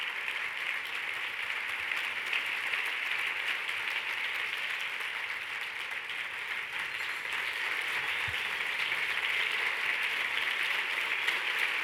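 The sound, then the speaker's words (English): An audience gives a standing ovation with sustained, dense applause. The steady clapping stays fairly faint and continues evenly throughout, with no talk. “I'm so glad you gave Dr. Jones that standing ovation.”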